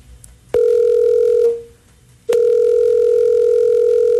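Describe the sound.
Telephone ringback tone on an unanswered call: a steady, mid-pitched tone sounds for about a second, pauses, then starts again and runs to the end.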